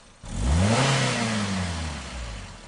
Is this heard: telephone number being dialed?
no